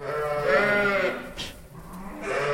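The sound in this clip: Dairy sheep bleat in the barn of a remote farm in the Napf region of Lucerne, a herd of about 120 milk ewes; loud, overlapping, wavering bleats swell, dip briefly, then rise again.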